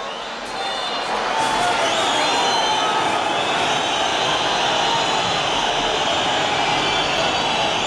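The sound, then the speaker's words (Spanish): A football crowd roars at El Molinón stadium after a Sporting win, a loud dense wash of many voices that swells within the first second and then holds steady and sustained to the end. “El Sporting gana en el Molinón, eso no siempre sucede, pero ha pasado varias veces, alguna vez esta temporada, y el público del Molinón reacciona así.”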